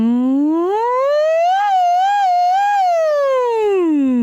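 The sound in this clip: A voice imitates a siren as a vocal stretching exercise on a hummed N sound: one loud, continuous glide climbs from low pitch, wavers at the top, then slides back down, with no other sounds.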